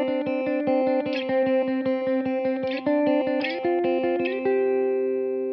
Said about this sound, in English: And that starts here on the seventh fret, and then down to the fifth, up to the seventh, goes 10th, 12th. And then he's just vacillating between those two different notes like this.